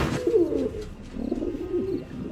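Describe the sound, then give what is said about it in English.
Racing pigeons coo in a few low, throaty, rolling phrases that are soft and steady, with no voices. “Birds. They're pigeons. Racing pigeons.”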